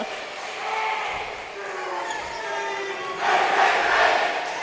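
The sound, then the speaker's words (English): High school fans cheer and shout after an ace in a volleyball match, a sustained crowd roar that swells louder toward the end. “Fan section got excited about that one. Looks like all the high school kids stood up and cheered them on.”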